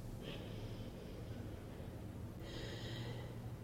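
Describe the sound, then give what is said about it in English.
Slow, deep breathing in and out through the nose, with two soft airy breaths separated by a pause, faint over a low steady hum. “As long and slow and deeply as you can. And if it's available to you, start to breathe in and out through your nose.”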